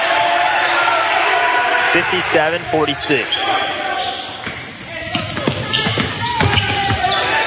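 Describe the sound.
A basketball is dribbled on a gym floor during a Sylacauga vs. Indian Springs game. Several firm bounces land in an uneven rhythm under a commentator's running talk and a murmuring crowd.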